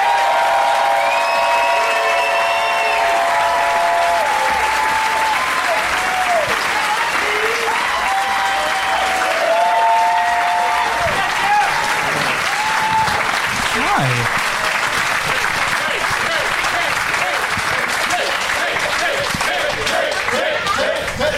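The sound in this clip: An audience applauds and cheers to welcome three guests onto a stage. Loud, dense clapping runs unbroken throughout, with shrill whistles and crowd shouts mixed in.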